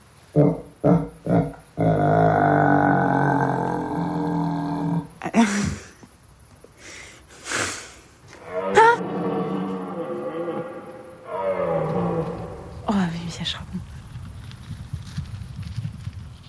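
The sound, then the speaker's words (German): A stag's call: a few long, deep, groaning bellows with rich harmonics, after several short knocks at the start and separated by brief pauses. “Was war denn das? Das war ein Hirsch.”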